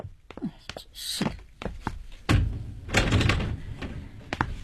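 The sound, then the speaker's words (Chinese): A residential door being unlatched and opened after a knock: a few sharp clicks and taps, then heavier thumps and a rattling burst of door noise, moderately loud, with faint voice sounds in between. “抄煤气的，请你开开门啊。”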